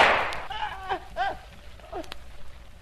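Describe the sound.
A gunshot in a radio drama cracks out as a single sharp burst at the start, followed by a man's voice speaking in short phrases.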